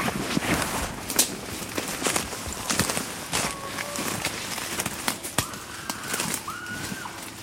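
Gear being packed up and footsteps setting off to follow chimpanzees: scattered crunching steps and rustles, with a dove cooing and other bird calls over them.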